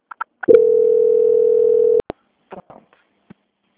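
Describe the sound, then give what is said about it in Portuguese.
A steady telephone line tone during a call transfer holds for about a second and a half, then cuts off into a couple of clicks, followed by faint, brief voices. “transferir aqui, só aguarde em linha”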